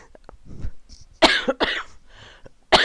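A few sharp, harsh coughs mixed with raspy throat clearing, loud bursts separated by short pauses and softer throaty rumbles, with no speech.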